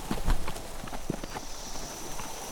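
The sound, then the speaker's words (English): Horses' hooves clip-clop as riders head toward a misty valley ringed by cliffs, a few uneven strikes at a walking pace, moderately loud with a low rumble underneath. “They rode on for Serpent Valley and its great curve of surrounding cliffs.”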